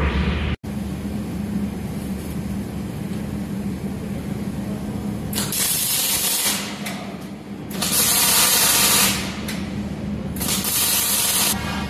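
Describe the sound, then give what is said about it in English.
Welding a scotch onto a top piece that must shift about 1.5 to 2 millimetres gives a continuous crackling, hissing arc. The arc breaks off briefly near the start, and a few louder surges follow later. “weld this scotch on because this top piece needs to move to the right approximately 1.5, 2 millimeters at the most. So weld that on, drive a wedge in, and hopefully move it over.”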